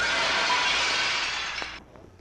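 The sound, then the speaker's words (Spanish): A glass medicine bottle knocked over and breaking: a bright, hissing crash of shattering glass that holds for under two seconds, then cuts off abruptly, leaving a faint clink and quiet. “Por venir apurado, no me di cuenta y le boté la botella de medicina.”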